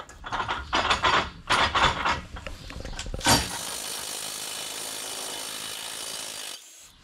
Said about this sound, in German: So, und jetzt habe ich hier schon das erste Problem. Das habe ich mir so natürlich nicht vorgestellt. Ich kriege die Schraube hier nicht gelöst.